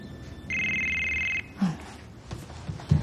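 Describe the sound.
A telephone rings once in a single steady electronic burst, followed by a few faint low bumps.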